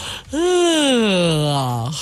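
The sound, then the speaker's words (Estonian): A person demonstrates a drawn-out, voiced yawn: one long breathy vocal sweep whose pitch rises briefly, then slides slowly downward before cutting off. “kuidas sa tavaliselt haigutad , kas viisakalt ja vaoshoitult või sulle meeldib kodus oma pereliikmete , kellega sa oled harjunud , lähed sa haigutad niimoodi .”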